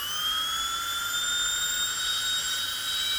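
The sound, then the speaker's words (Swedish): A Belgian dentist's drill whines steadily at a high pitch, loud and unbroken throughout, with no other sounds. “Och det mest uppskattade YouTube-ljudet, det är en belgisk tandläkarborr.”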